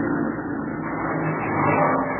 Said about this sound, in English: Mud. The wheels won't hold. They're just digging in deeper.